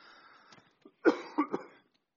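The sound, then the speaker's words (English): A person coughs a few times, short, faint bursts with a softer throaty sound just before them. “Now cough again.”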